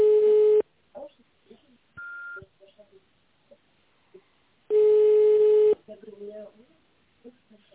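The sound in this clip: Ringback tones on a telephone line while a call is placed: two long, steady tones about four seconds apart, with a short higher beep between them and faint voices in the gaps.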